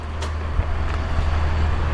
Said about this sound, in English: And my ride is here. It is a Ford Fusion.